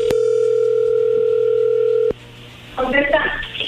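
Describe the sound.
A steady telephone dial tone plays for about two seconds as an outgoing call begins. A click cuts it off, a short quiet follows, and then a voice is heard.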